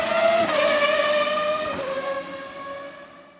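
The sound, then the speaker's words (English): A race car speeding past in a motor race, its high whining engine note sliding downward in pitch and then fading out. “What an amazing race for Barrichello!”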